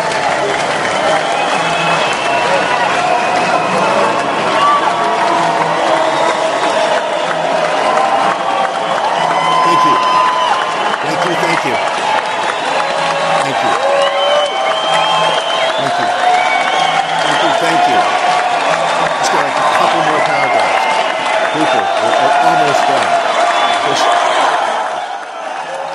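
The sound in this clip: A large crowd cheers and applauds continuously, a dense, loud wash of clapping with whoops and shouting throughout, then drops off abruptly at the very end.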